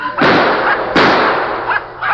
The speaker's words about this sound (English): he nailed two of them. One with the rifle and one with the pistol.